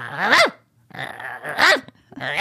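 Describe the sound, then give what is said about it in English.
A female dog barks at people who are talking to each other, giving a few loud, rough barks mixed with throaty growling sounds in uneven bursts. “And the more you say shut up, the more she barks, right?”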